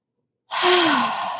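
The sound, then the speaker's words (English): A single deep breath starts after half a second of silence: a full, sigh-like rush of air with a faint voiced hum that dips in pitch, sustained steadily to the end. “And a deep breath will do that for you. And it takes how long?”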